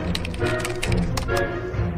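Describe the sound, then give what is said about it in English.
Rapid clicking of a computer keyboard as a question is typed in, with dense, irregular keystrokes layered over a steady hiss. “You just type in the question, it will read his mind.”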